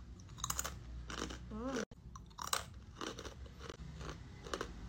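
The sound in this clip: Crunchy chewing of spicy fried fish-cake sticks seasoned with lime leaves, with repeated crisp bites and crackles throughout and a brief vocal sound partway through.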